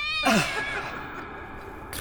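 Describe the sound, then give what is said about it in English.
A cat gives a single loud, brief meow that slides downward in pitch, set against a dense, noisy background. “Oh, come on, kitty, kitty, kitty, kitty.”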